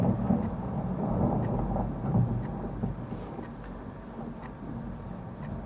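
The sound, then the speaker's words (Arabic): Thunder rumbling during a storm: a low, steady roar that rolls on without a break, with a grainy hiss spread across the top and no voices. “سبحان الله الرعد ده.”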